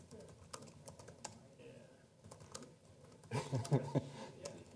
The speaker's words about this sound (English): Your ability to type decreases with the number of people that are actually looking at you.